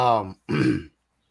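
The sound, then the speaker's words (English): Throat clearing in two short, harsh voiced rasps separated by a brief gap, the first more tonal and the second rougher and gravelly, then silence. “I'm clearing my throat because this is a long-winded alert.”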